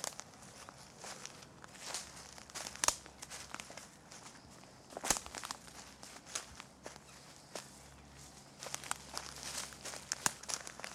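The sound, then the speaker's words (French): Slow footsteps of a person walking, with a crunchy, rustling texture to each step. The steps are many, irregular and soft, with no voices. “Marcher, avancer d'un pas lent, s'arrêter.”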